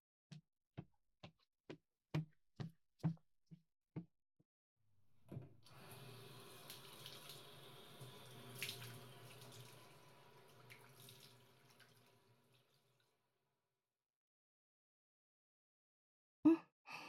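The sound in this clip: A tap runs while hands are washed: several seconds of steady, gushing water that then shuts off. A quick series of sharp clicks comes before it and a single knock near the end, with no talk.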